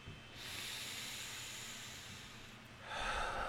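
A deep breath is drawn during a guided meditation. A long, soft, airy inhale hisses steadily, then a louder, fuller exhale swells near the end, with no talk.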